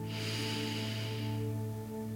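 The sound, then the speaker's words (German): A deep breath drawn in through the nose into the belly during a guided relaxation: a steady airy rush lasting about a second and a half over a low hum, then fading away. “Und dann atme einmal ganz tief in deinen Bauch ein”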